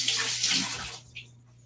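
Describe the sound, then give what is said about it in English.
Tap water runs as hands sticky with sushi rice are rinsed while making California rolls: a steady hiss of flowing water lasts about a second, then cuts off, leaving a brief faint splash. “And then I'm gonna press it down after I rinse my hands off again because I just got more rice on my hands.”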